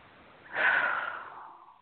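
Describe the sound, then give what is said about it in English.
One deep breath, an airy rush that swells quickly and then fades slowly over more than a second, soft and heard alone. “Take a nice deep breath.”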